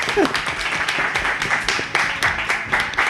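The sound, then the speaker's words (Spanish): Clapping from a small group during an end-of-season awards segment, a few hands striking fairly steady, sharp claps for several seconds, with a brief voice near the start. “Y no lo hemos dicho. Un aplauso.”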